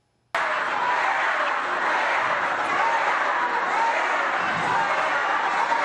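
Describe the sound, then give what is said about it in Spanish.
A crowd boos and shouts at a public event in Colima, Mexico, attended by the Mexican president. The loud, sustained roar of many voices bursts in abruptly and stays steady to the end. “se viralizó un video donde parecía que el público estaba abuchando a la presidenta mexicana Claudia Sheinbaum durante un acto en Colima”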